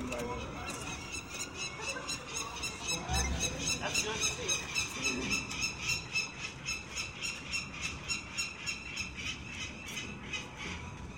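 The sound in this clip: Harsh, repeated squawking calls from adult urban raptors diving at people checking a nest box on a building ledge. The calls come in a rapid, rhythmic series that grows more regular over time.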